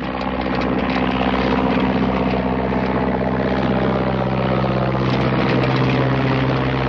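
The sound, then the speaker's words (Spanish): Engine of a small biplane starting its takeoff run, a loud, continuous droning rumble with a steady low hum running underneath, alone without voices. “El avión inicia la carrera de despegue.”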